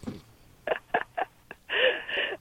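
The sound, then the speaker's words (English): Telephone keypad dialing gives four short, evenly spaced beeps, then a longer, louder tone. The sound is thin and slightly muffled. “Yeah, let me dial that right now.”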